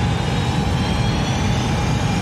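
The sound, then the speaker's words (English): Spacecraft engines applying reverse thrust give a loud, continuous low rumbling roar that holds steady without surges or pauses. “Manual navigation controls online in 2, 1. Green light, applying reverse thrust.”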